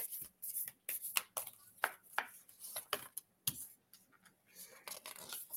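Slick new tarot cards being shuffled, producing many crisp, rapid clicking and slapping card sounds in irregular bursts, with no talking.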